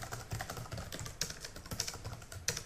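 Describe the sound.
Typing on a computer keyboard while writing emails: quiet, irregular key clicks in uneven bursts, with a few sharper taps standing out.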